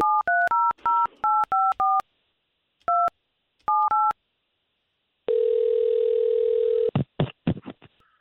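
A telephone number dialed on touch-tone keys: a quick series of short two-tone beeps, a brief pause and a few more, then a long steady line tone followed by a few sharp clicks.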